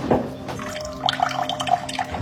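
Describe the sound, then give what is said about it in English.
Cold water running from a kitchen faucet in Fayette County, where the water carries sediment blamed on a data center: a quiet, steady trickle with splashy spatters and drips that grow busier in the second half. “Cold water pressure in the kitchen.”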